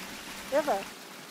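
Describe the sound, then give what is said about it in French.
Pumped groundwater from a well test pours out into a stream, a continuous broad rushing hiss throughout, with a brief higher tonal sound rising over it midway. “C'est incroyable de voir autant d'eau s'écouler dans la nature.”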